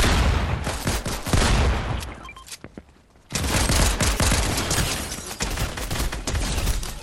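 Dense gunfire in the video game Fortnite, with rapid bursts that fire almost without pause, drop to a brief lull near the middle, then resume just as loud and continuous.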